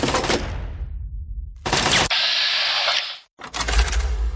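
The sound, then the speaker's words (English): Video game gunfire from turrets or a sentry bot crackles in loud, dense bursts, with a brief lull and then a long unbroken stretch of rapid fire. The firing cuts out for a moment, then resumes. “sounds like sentry bot or something. Taking fire. Turrets? Taking fire.”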